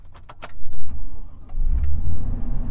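A car drives off from an oil well pad. A few light metallic clicks and jangles come first, then a loud, low engine rumble swells and holds steady to the end.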